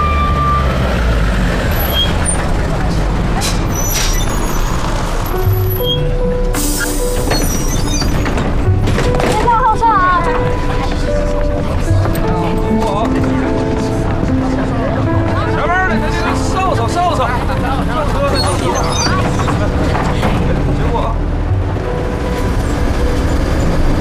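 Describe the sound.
A city bus pulls away from a stop, with a loud sustained engine rumble, hissing air brakes and beeping tones, while passengers' voices carry on throughout.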